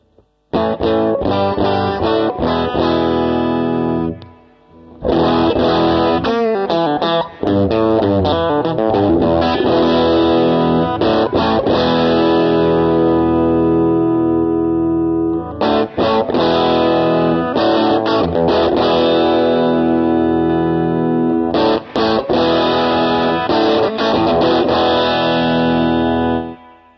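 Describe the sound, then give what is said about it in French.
Distorted electric guitar boosted with a Tube Screamer overdrive pedal plays thick, sustained chords and riffs for nearly half a minute. It is loud and alone, with a few short breaks between phrases. “le faire monter un peu en épaisseur en le boostant avec le Tube Screamer qui est devant, que je vous fais écouter tout de suite”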